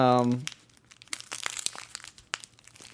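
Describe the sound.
Packaging crinkles, crackles and tears as a heavily taped package is unwrapped, in irregular bursts of rustling. A short vocal sound comes at the very start.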